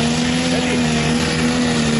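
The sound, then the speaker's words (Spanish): A tractor engine accelerating, a steady droning hum with strong harmonic tones that holds fairly even and loud across the whole stretch. “Y allá hay un tractor allá. ¿No arranca más o sí? Ahí está acelerando. Ahí empezó.”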